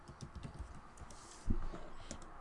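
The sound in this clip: Computer keyboard typing in a Skype chat, a quiet run of many quick, uneven keystroke clicks with a slightly louder burst of keys partway through.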